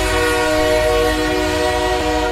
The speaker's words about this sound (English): Let's bring the train in.